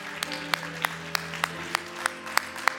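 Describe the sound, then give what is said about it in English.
A church audience claps for two pastors called up to the front. About nine sharp, evenly spaced claps follow a steady beat over a sustained tonal backdrop. “Keep it going. Come on now. Let's give them a hand.”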